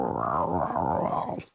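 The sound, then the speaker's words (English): A human voice imitating a tiger growl, a low, rough, sustained rumble lasting about a second and a half alone before trailing off. “had to do one more tiger growl for the one time.”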